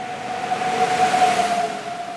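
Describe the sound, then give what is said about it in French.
A train pulls into a station platform with a steady, loud rumble and a sustained high squealing tone that holds throughout. “Il est 22h. Le train arrive à quai.”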